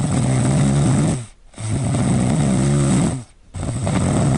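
Loud snoring fills a bedroom in the middle of the night, three heavy rattling snores separated by brief quiet pauses for breath, the last one cut off. No talk.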